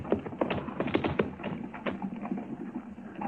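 Hooves of horses approaching with no one driving them: a faint, uneven clip-clop of many light taps, densest early and thinning out.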